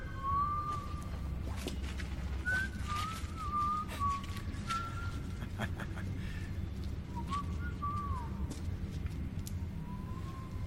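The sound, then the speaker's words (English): A person whistles short, wavering mid-pitched notes in several separate phrases, faint against a low background hum with scattered clicks. “Maybe if I whistle, you can follow the sound?”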